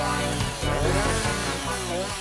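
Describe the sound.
A chainsaw trims the uneven spots off a felled tree trunk as it is prepared for transport, a loud, steady engine buzz running throughout.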